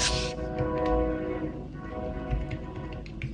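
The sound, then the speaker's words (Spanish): A train passing, heard as a loud, steady rumble with a sustained droning tone that runs the whole time, with no one talking. “Disculpen, por aquí, por aquí va el tren.”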